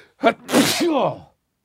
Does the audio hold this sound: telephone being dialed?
no